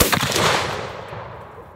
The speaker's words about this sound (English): We're gonna take one more shot. It's three shots.